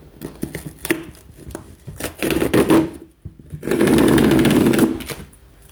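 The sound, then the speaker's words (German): A parcel containing a book subscription box is opened and unpacked, with irregular bursts of rustling, scraping and tearing, ending in a longer, louder stretch of ripping. “ich werde dieses Paket mit euch zusammen auspacken und wir gucken mal, was drin ist. Es könnte jetzt teilweise ein bisschen hintergrundlauter werden.”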